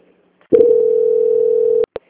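A telephone line tone plays while a call is transferred: a single steady mid-pitched hum holding for over a second, cut off by clicks and followed by one brief blip.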